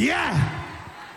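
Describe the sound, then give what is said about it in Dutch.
A single brief shout from one voice that swoops up and then down in pitch and fades within about a second. “Iemand schreeuwt.”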